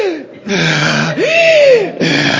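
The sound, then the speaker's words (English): A voice imitates a preacher gasping for breath through a sermon, with a few loud, strained, breathy gasps and whimpering catches separated by short pauses. “The entire sermon, he was gasping for breath. Just one of those wheezers, you know.”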